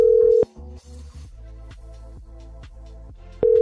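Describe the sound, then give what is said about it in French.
A telephone call to a radio guest rings unanswered. A loud, steady ringback tone sounds at the start and again at the end, with quieter repeating tones in between. “Je vais essayer de rappeler la personne que je veux qui intervienne. Et il va répondre.”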